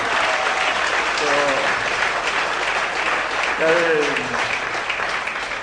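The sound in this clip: Strong applause welcoming two devotees onto the stage at a religious gathering: a loud, dense, continuous wash of clapping, with brief voices rising over it twice.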